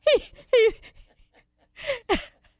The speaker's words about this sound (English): he's breathing hard